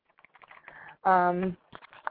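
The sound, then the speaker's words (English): Light, scattered clicks of typing on a computer keyboard, faint and irregular, broken midway by a short steady voice-like hum before the tapping resumes. “You guys in the chat room, if you can't hear, you might have to refresh. I'm going to type that in for you now.”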